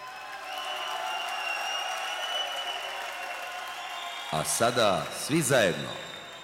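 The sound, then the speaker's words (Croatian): Concert audience applause runs as a steady, even layer of sound, and near the end a loud voice calls out over it in a few short bursts. “Zamolit ću vas sada za jedan spontani aplauz. Hvala, vi ste najdivnija publika na svijetu.”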